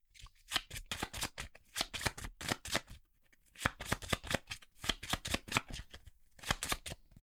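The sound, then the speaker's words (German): Five playing cards from a flower-themed card game being shuffled, with quick crisp papery slaps and flutters in several bursts separated by short pauses, fairly quiet and with no talking. “Gut, dann mische ich wieder diese fünf Karten.”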